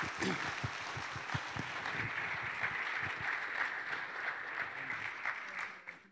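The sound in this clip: A church audience at Generations Church applauding as a guest speaker is welcomed: dense, steady clapping holds throughout and tapers off at the very end.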